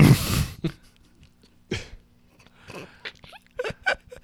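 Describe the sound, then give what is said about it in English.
A single loud, rough burp bursts out at the start, followed by quieter, scattered short sounds. “Excuse me. Bit of methane escaping my esophagi.”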